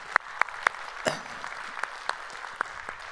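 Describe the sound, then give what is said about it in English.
A church audience applauds to welcome visitors, producing thin, scattered applause with several distinct sharp claps standing out over a soft rustle. “So if you would, put your hands together and welcome them into our time of study here today.”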